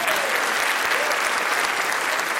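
Applause fills the whole clip in a dense, steady patter of many clapping hands, loud and even throughout, after a correct answer in a guessing game about organ pipes.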